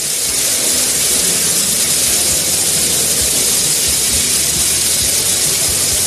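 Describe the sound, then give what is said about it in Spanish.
Lottery balls pouring into the drum make a dense, continuous rushing clatter, loud and steady from start to finish with no voices. “Este sonido que estás escuchando es el de las bolas entrando en el bombo.”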